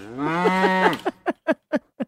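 A cow moos loudly with one long, drawn-out, strongly tonal call, then five short, evenly spaced lowing bursts in a steady rhythm, with no voices.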